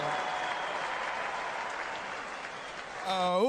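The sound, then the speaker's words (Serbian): Applause from a tavern audience for a live band, a faint, even patter of many hands that holds steady until a man's voice begins at the end. “Može li jedan najveći aplauz za orkestar AC Stojneva? Jače, jače, jače!”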